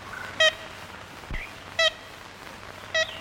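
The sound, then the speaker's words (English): Ivory-billed woodpecker calls from an old, scratchy 1930s recording made in Louisiana's southeastern woods: three short, nasal, harmonic toots spaced about a second apart, standing out over a constant background hiss. “That's a sound that ornithologists would dearly love to hear again, but they haven't for years. It's the call of the ivory-billed woodpecker”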